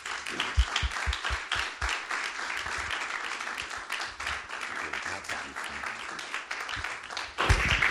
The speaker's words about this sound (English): Love to bring them to the pulpit right now. Let's give them a hand of welcome.